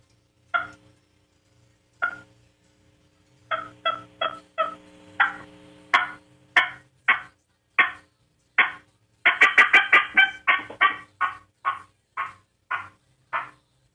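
An L300 friction box turkey call imitates a hen's fly-down cackle: sharp raspy yelps, widely spaced at first, quickening into a rapid run of notes, then trailing off in evenly spaced calls.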